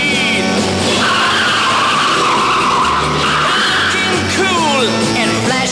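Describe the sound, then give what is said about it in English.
Tires skid and screech on a Jaguar XKE sports car as its engine roars, loud and continuous, with squealing sweeps near the end. “Well, I've seen him around driving his XKE.”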